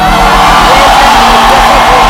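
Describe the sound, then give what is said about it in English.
A church audience lets out a loud, sustained shout of joy, a dense crowd roar of whoops and cheers that holds steady throughout without a break. “And it's just a blessing to have him home. So one more time, a shout of joy.”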